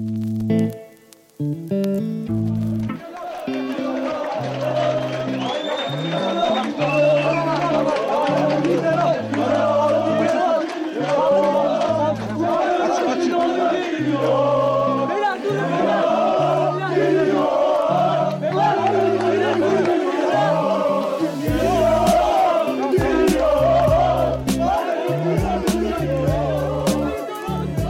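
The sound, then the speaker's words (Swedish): Galatasaray fans give Tobias Linderoth a chaotic welcome on his arrival in Istanbul in June 2007, a loud, unbroken din of massed chanting and shouting that stays dense and steady throughout. “Det ni hör här är Galatasaray-fansens kaotiska välkomnande av Tobias Linderoth när han precis landat i Istanbul i juni 2007.”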